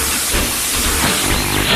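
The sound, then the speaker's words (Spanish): Steady loud hiss of steam from a coal-fired steam train starting to move, a dense whooshing rush over a low rumble with no clear breaks. “Cargamos el carbón. Motores a su máxima potencia. Y el tren comienza a avanzar.”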